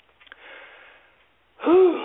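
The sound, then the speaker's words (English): Gasping for breath while recording: a faint, drawn-out airy inhale, a short pause, then a louder voiced gasp. “Sorry, I forget to breathe when I'm recording.”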